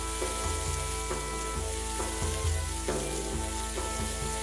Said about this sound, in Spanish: Ahora tírale un poco de sal y mira, la echamos en la sartén que ya está calentita.